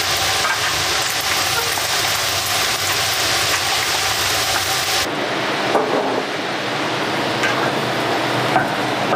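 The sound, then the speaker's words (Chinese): Pork belly fries in rapeseed oil in a pan, giving a loud, continuous crackling sizzle that runs unbroken and eases slightly in the second half. “我们在锅中加入适量的菜籽油，然后倒入我们切好的五花肉，看火炸至金黄，捞出备用。”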